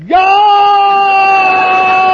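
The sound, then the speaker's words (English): An adult voice imitates a baby yelling loudly. The yell jumps sharply upward in pitch at the start, then holds one loud, strained, high tone for about two seconds. “She used to not just cry, she used to open her mouth wide and yell. She'd go,”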